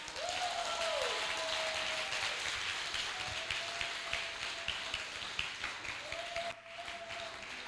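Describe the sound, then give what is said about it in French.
A church audience applauds in steady, dense clapping that carries on throughout with no break, while a few faint sustained tones sound above the noise. “acclame Dieu pour ta vie”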